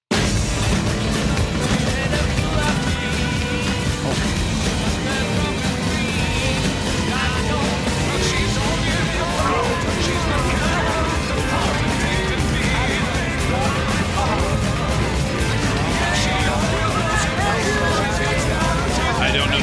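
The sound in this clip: Ten songs mashed up and playing simultaneously form a loud, dense, unbroken wall of overlapping melodies, beats and tones, with no single tune standing out from the blur.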